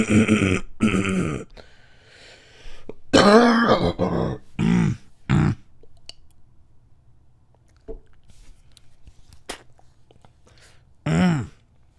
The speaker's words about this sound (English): Yes, I'm okay. And no, I don't smoke. Even though that cough can seem like I smoke